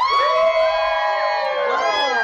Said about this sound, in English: So if you think we're having a boy, cheer.